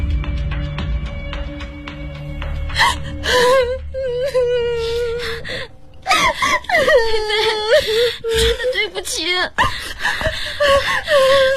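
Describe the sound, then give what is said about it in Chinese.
A woman, a bride brought to the police after her wedding, sobs and wails in wavering, drawn-out cries broken by gasping breaths, rising and falling in pitch with short pauses between bursts. “都怪我不好，你别再哭。”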